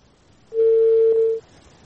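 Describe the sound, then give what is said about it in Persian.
A single steady mid-pitched telephone line tone sounds alone for about a second as a call to a guest is cut off. “خب فکر کنم تماس ما با بانو شاهی قطع شد.”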